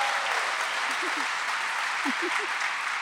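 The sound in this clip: Audience applause greets a newly married couple called to the stage at a live mock-court show. The clapping is dense and steady throughout, with a few brief voices rising over it.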